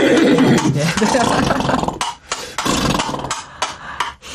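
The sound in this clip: Galloping horse hoofbeats imitated with hard coconut shell halves held farther from the microphone. A quick run of hollow knocking clops in an uneven rhythm follows a dense stretch of mixed sound.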